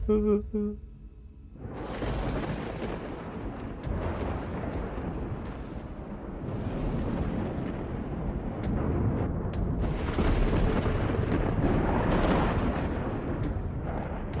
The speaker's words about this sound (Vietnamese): Ông vừa dứt lời thì tự dưng sét từ trên trời đánh đoảng một cái.